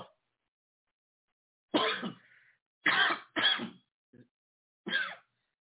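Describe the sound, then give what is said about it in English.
Harsh coughing fit after coffee went down the wrong way: four loud, rough coughs with a faint short one between the last two, in otherwise quiet surroundings. “Some of my coffee went down the wrong way. I apologize about coughing.”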